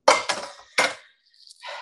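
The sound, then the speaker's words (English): A metal pan being moved aside in a home kitchen gives three sharp clanks in quick succession, followed by a softer, brief scraping rattle. “moving a pan out of the way”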